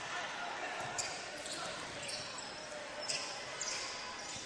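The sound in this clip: Basketball dribbled on the court during a high school game, a few soft ball bounces spaced irregularly beneath a steady wash of crowd noise and voices.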